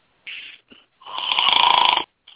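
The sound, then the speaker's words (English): Loud, rasping snores, a short one and a brief catch of breath, then a long drawn-out rattling snore, with another beginning just as the sound ends. “Is that you snoring? No, it ain't me snoring.”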